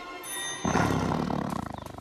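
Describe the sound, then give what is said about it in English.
A tiger gives a loud, deep, growling roar that swells suddenly and then breaks into rapid rhythmic pulses as it trails off. No voices are heard. “Little tiger, don't be mean.”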